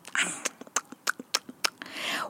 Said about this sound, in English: Now, Mrs. Crocodile chewed on these rose apples.